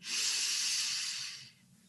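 A single long exhalation during a breathing meditation: a steady, breathy hiss lasting about a second and a half before fading out, heard alone without talk.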